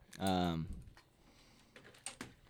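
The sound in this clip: Faint clicks from typing on a laptop keyboard, a few quick keystrokes coming after a brief voiced sound.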